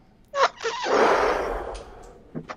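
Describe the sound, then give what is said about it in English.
A deep inhale through the nose during a pelvic-floor breathing exercise, a broad airy rush of about two seconds that swells and then tapers, with short sharper breaths at the start and end. “all you got to do is simply inhale through the nose”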